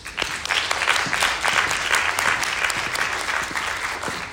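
Audience applause welcoming a lecturer at the Fenner Lecture on ocean futures: dense, even clapping that holds steady for about four seconds before easing slightly at the end.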